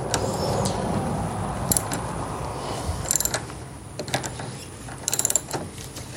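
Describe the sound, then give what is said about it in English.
A socket wrench ratchets in a few short bursts of rapid, sharp clicks while tightening a negative battery terminal, each burst separated by pauses over a steady low background noise. “Switch my socket wrench back the other way to tighten.”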